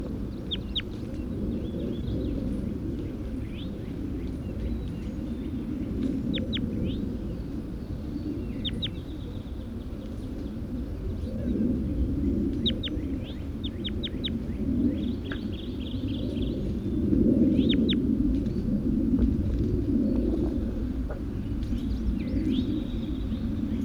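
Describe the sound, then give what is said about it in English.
Bird calls in a numbered recording session: short, high, clicky notes arrive in sporadic quick clusters, fairly faint, over a steady low rumble that swells slightly partway through. “Start recording bird 81.”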